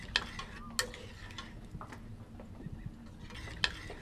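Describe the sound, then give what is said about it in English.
Stirring chocolate and water in a pot as the chocolate melts, with soft continuous scraping and swishing and a few sharp clinks of the utensil against the pot. “Well, the goal is to have the chocolate and the water fully integrated into one solution, so it would be easier for the process if you just stirred it a little bit.”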